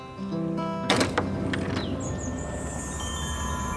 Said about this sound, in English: opens a door to the outside